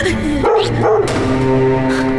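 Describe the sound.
A dog barks a few times in short, sharp bursts over a sustained tonal background.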